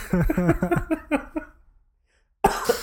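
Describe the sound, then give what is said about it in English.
Coughing during an asthma attack: several harsh, throaty bursts in quick succession, then a short silence before another loud burst breaks in. “Why do I only have asthma attacks on the show? Not in the middle of like meetings when I need an excuse to leave the room. Only when we're recording do I have my full-blown asthma attacks.”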